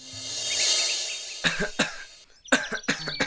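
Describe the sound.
Someone coughs repeatedly, a string of harsh, rough bursts coming in quick succession after a few seconds of steady background hiss.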